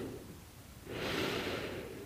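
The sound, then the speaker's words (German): A long, slow exhale during a relaxation breathing exercise: soft, airy breath noise swells in after a quiet start and holds steadily to the end, faint and without talk. “Schön aufs Ausatmen konzentrieren.”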